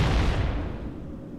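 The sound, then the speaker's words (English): Large rockets fired by a robot explode in a video game, a deep, loud booming blast whose low rumble slowly decays across the whole moment, with no voices. “Now we're outside again, me and this other murderous robot, and it is shooting very large exploding rockets at very small helpless creatures.”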